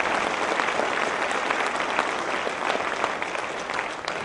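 Church audience on Super Bowl Sunday applauding to welcome new believers who prayed a prayer, a dense, even roar of clapping sustained from start to finish.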